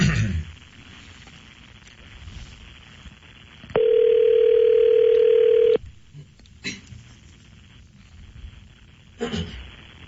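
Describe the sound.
A telephone call tone sounds once during dialing: a steady two-second tone, loud against a quiet, hissy line with a few faint clicks and knocks before and after.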